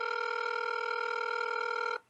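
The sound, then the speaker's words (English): Telephone ringing tone as a call is dialed: one steady, buzzing electronic tone holds at even loudness for about two seconds, then cuts off abruptly. “Let's dial up Marlo Oaks.”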